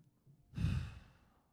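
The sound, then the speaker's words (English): A deep exhale during a guided breathing exercise: a single long breath out that swells quickly, then fades softly over about a second, heard alone. “Breathe out any low vibes. Breathe out any self-doubt.”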